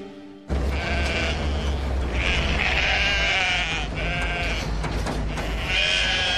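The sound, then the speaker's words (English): Sheep bleating in a run of loud, drawn-out, wavering bleats over a steady low rumble, with no voices. “Baa to you too, you dumb sheep!”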